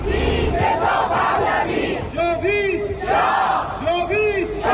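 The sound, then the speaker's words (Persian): Crowd of Iranian protesters in Italy, holding photos of the dead and shouting their names, chants loudly in unison. The shouted voices rise and fall in sustained, repeated phrases. “ایرانیان مقیم ایتالیا پس از 6 ماه از کشتار 18 و 19 دی همچنان تلاش میکنن با در دست داشتن عکس جاوید نامان و فریاد زدن نامشون به جامعه جهانی یادآوری کنن”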